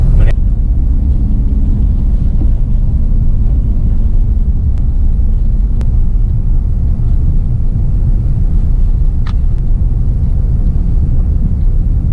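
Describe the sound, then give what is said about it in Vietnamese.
A car drives at night after being stuck in mud on a road near Sedalia, Missouri, with a steady low engine rumble throughout and a few faint clicks on top. “Ok, bây giờ mình vô xe lại và kiếm đường ra.”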